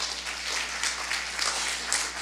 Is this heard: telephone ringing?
no